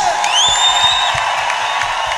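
Audience applause and cheering, a dense, steady wash of crowd noise with a few high, sustained tones that slide upward over it.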